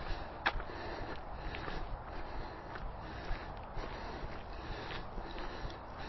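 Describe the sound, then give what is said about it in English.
After a five-minute workout, someone draws a few sharp, sniffing intakes of breath, faint and scattered over a quiet hiss. “Sharp intakes of breath.”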